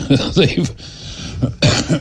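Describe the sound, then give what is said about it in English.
Harsh coughing, a few rough bursts near the end mixed in with talk, loud and throaty. “With that cough, I was expecting that guy's next question to be, Alexa, what is emphysema?”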